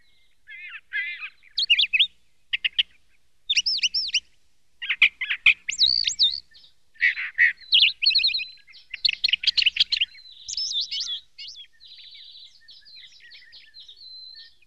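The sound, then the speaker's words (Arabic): A sparrow chirps on a tree branch in a long run of quick, bright, high-pitched chirps and trills. They come in many separate bursts with short gaps, and the last few are fainter, heard alone. “إن هذا العصفور صديقي.”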